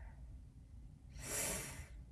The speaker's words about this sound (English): I invite you to take a deep breath with me